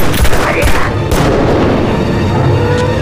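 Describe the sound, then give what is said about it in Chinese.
Loud gunfire erupts in a few sharp, booming bursts at the start, then settles into a dense, continuous roar of shots and rumbling. “开枪！开枪！开枪！开枪！”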